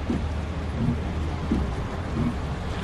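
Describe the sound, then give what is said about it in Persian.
Steady rain with thunder on a road while driving, a dense, constant hiss of falling water with low rumbles of thunder running underneath. “هوا بارونیه.”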